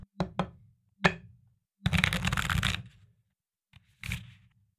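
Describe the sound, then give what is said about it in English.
Tarot cards being shuffled and drawn: several sharp taps and knocks, then a riffling burst lasting about a second, followed by a couple of softer taps. “let's pull our tarot card.”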